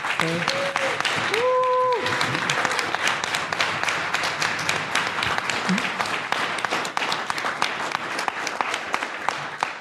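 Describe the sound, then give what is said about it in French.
Conference audience giving loud, sustained applause during closing thanks at a science event, dense claps throughout with a brief whistle near the start. “Là, je voudrais vraiment un tonnerre d'applaudissements.”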